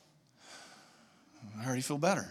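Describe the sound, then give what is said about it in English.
A deep breath: a soft, airy inhale, then a louder voiced exhale or sigh. “She would say, slow down and just take a deep breath. Let's do that. Do it.”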